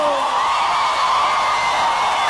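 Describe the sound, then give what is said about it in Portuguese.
An audience at a live show shouts and cheers in response to the host, a steady, loud roar of voices that holds for the whole clip. “Quem gostou, dá um grito!”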